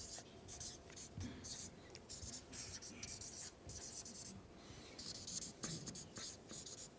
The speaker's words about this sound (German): möchte ich auf dem Flipchart, das habe ich jetzt gerade fast ein bisschen vergessen, diesen Punkt möchte ich hier da aufschreiben, dass ihr immer so ein bisschen wisst, wo wir etwa sind. Und ich schreibe das hier auf als Worte haben Macht.